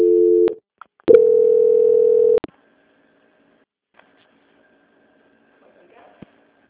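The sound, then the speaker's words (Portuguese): Telephone line tones during a bank call's transfer to quality control: a short steady beep, a pause, then a longer held tone, followed by near silence with a few faint clicks. “peço que a senhora aguarde na linha agora, que a gente vai estar transferindo para o controle de qualidade”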